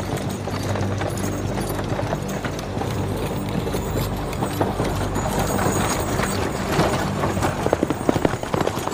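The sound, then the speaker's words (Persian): Hooves of a horse pulling a cart clip-clop steadily, with many quick hoofbeats over a dense, rumbling background of rolling noise. “سیاوشو با گاری میبرن.”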